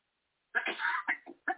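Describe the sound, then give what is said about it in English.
Coughing from a participant on a group call: a few harsh, rough bursts in quick succession, the first longest, with short gaps between and no talk over them. “Just remember, when you cough, that takes all of the volume away from the rest of us.”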